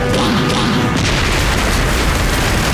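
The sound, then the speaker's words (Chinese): An explosion blasts open a city gate, producing a loud, sustained roaring boom with dense crackling rumble that fills the whole clip at steady force. “枪支弹药也是有数的，把城门给我炸开。”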